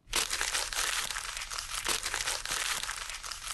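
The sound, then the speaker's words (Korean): Paper rustling: steady, dense crinkling and crackling that keeps repeating at an even level for several seconds, with no voices. “이거는 같은 소리가 계속 반복이 되고 있는데 장작 타는 소리랑 정말 비슷합니다만 이 소리는 바로 종이 부스럭거리는 소리입니다.”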